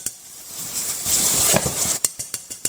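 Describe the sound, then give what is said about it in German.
Bone marrow and onions sautéing together in a pot over low to medium heat: a bright, even hiss of sizzling that then gives way to a few sharp utensil clicks against the pot. “Und so bei kleiner bis mittlerer Hitze wird jetzt zunächst das Mark und dann die Zwiebeln angedünstet zusammen.”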